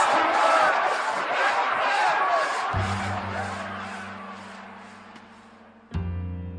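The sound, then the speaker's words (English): An audience erupts in loud cheering and shouting after Martin Luther King's speech, the people leaping from their seats. The roar gradually fades and gives way to sustained low, steady tones. “The audience exploded, leaping out of their seats.”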